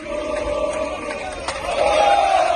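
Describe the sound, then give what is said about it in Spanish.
Athletic de Bilbao football fans cheer the team off as it leaves for Granada, a dense crowd roar with a sustained chanted tone that swells louder over the final second. “Este es el sonido de los aficionados del Athletic de Bilbao despidiendo al Atleti en su salida hacia Granada.”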